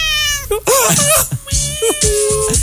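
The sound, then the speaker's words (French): A pet cat meows several times: high, wavering cries that rise and fall in pitch, fairly loud, with a voice in the background. “J'aime le son du chat.”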